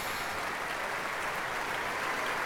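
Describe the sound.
Loud, sustained applause from an audience clapping hard together, a dense, even wash of clapping that holds steady for the whole clip with no voices over it.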